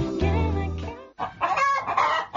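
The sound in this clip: A chicken clucks in a radio advert for a garden machinery dealer selling chainsaws, hedge trimmers and lawnmowers. A long, tonal call comes first, then a brief pause and a loud, rapid burst of agitated clucking with no talk.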